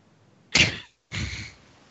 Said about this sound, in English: I pull out my blaster and shoot the tree.